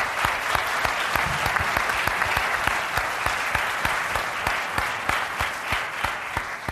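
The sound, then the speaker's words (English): Audience applause at a Climate One forum on carbon and California's climate policy. Dense, steady clapping holds an even loudness for nearly seven seconds, with no voices rising above it. “Let's give them another big hand here.”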